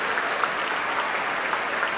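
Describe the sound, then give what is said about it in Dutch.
An audience applauds orchestra musicians at a concert, including the flute, oboe and clarinet players. Dense, sustained clapping forms an even, steady roar from many hands, with a few sharper individual claps poking out. “Applaus ook voor de klarinetisten Olivier Paté en Hein Wiedijk.”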